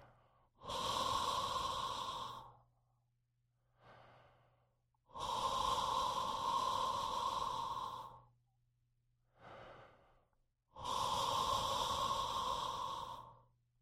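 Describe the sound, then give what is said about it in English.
Whispered breathing through a wide open throat with the head tilted back and jaw relaxed, shaped like a soft 'awe': three long, loud, breathy exhales alternate with shorter, fainter breaths in a slow, even rhythm. “I'm making kind of an awe-like sound, a whispered awe, as I do that, partly so you can hear my breath.”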